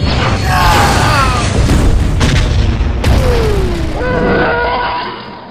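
Starship weapons fire in a space battle, with loud, continuous booming blasts and sweeping laser-like zaps that slide downward in pitch.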